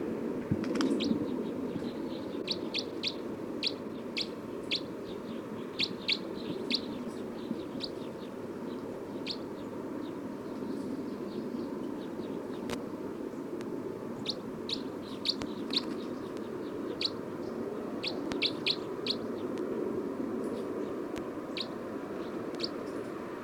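Bird calls: many short, high chirps repeat irregularly throughout. They are fairly faint against a steady, low background noise, and no one speaks.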